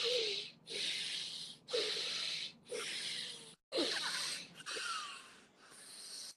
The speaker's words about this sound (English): closing off the right nostril with the right hand. Go into those steady breaths on the left nostril only.